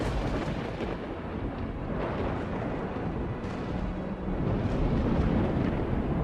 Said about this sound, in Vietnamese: Lôi điện đùng đùng đánh thẳng xuống tên dâu xồm.